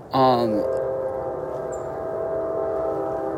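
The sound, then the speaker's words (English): A train horn sounds from a railway track beside a river, with a busy freeway across the water. A loud, bright tonal blast opens, then settles into a sustained, steady horn note over constant low rumble. “there's also a train track, hence the train noise.”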